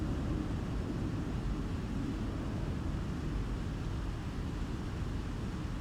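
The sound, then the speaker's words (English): An aircraft passing overhead gives a steady, low, droning rumble that stays even in loudness across the whole stretch, with no voices. “Can you hear the resonance of the aircraft passing overhead?”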